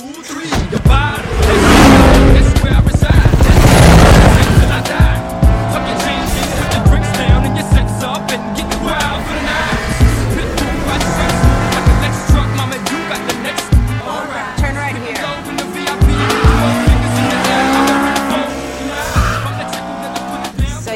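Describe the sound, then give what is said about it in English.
A car pulling away from a warehouse, its engine revving loudly with tire squeals and skidding throughout, the roar rising and falling over a dense, sustained mix of sound. “They leave the warehouse together with Monica Fuentes in Brian's car.”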